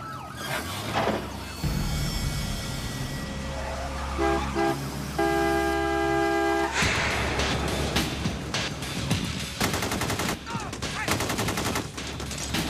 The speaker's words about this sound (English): Okay, he's firing. He just shot through his own window.